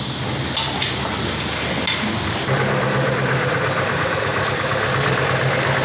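Car engine idling with a steady, dense mechanical rumble that holds constant throughout and grows slightly louder partway through, with no voices.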